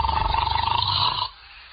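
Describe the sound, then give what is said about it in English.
A loud, rasping snore from someone asleep in bed, with a rough, rapidly pulsing rattle that holds for just over a second before cutting off into near quiet. “must you start snoring as soon as you close your eyes? Snoring? Who's snoring? I'm not snoring. It's that darn kid”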